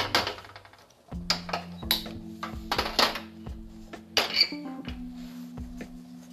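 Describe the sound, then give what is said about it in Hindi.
A frying pan is set on a kitchen stove, giving a few light metallic clinks and knocks spaced through several seconds, against a faint, steady tonal hum. “मैं fry pan यहाँ use कर रही हूँ fry pan चढ़ा दिया है”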